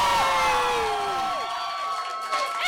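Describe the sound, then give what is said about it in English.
A live stand-up comedy audience cheers and whoops as a guest comes on stage: a loud, sustained crowd roar with high, gliding whoops running through it. “Put your hands together for our guest this evening.”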